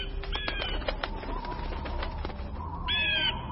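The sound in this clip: A flock of birds flaps their wings in flight, with many quick, papery flutters and wingbeats in an irregular burst of sound.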